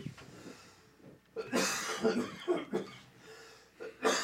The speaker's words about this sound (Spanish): para que se te quite la tos. Estamos sonriendo y tosiendo al mismo tiempo.